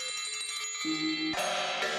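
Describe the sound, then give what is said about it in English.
Bell-like metallic tones from a contemporary percussion composition: sustained ringing pitches, joined by a lower struck tone partway through and then a bright shimmering strike that leaves layered resonance. “this is the sound of the earth. I've always been attracted to bell-like sounds. The title, Resounding Earth”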